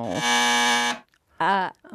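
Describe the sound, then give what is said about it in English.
A quiz game contestant's buzzer gives one long, steady, harsh electronic buzz, followed by a brief voice. “No, that's my buzzer.”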